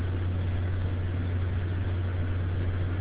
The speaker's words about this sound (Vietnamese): Có lẽ là thầy tổ chức đắng đang dùng cái iPhone và đi trên xe cho nên không có rõ.